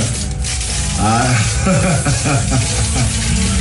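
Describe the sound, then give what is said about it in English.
Aluminum foil smeared with peanut butter crinkles in a loud, continuous crackly rustle, with voices and laughter over it throughout. “I hear a lot of foil.”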